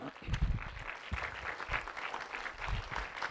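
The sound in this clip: Audience applause welcoming a speaker: a steady, dense wash of clapping that holds for a few seconds at an even level.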